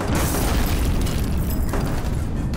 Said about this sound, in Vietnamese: Một quả pháo cối rơi ngay cạnh cầu sự, sức ép của vụ nổ hất tung tất cả.